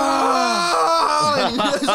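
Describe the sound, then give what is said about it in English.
A man imitates a barbarian screaming, a voice letting out a loud, drawn-out guttural yell that wavers and breaks in pitch toward the end. “and he was screaming like a barbarian. He was like,”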